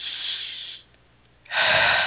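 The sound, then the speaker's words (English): A deep breath drawn in and let out during a guided breathing exercise: two long, airy breath sounds separated by a brief quiet pause, the second louder and fuller. “let's take another deep breath. One more.”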